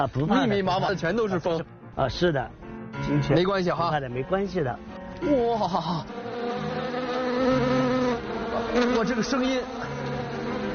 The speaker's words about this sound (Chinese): 这边就是专门养蜂的地方了。啊，是的。我怎么感觉里边啊，不密密麻麻的全都是蜂。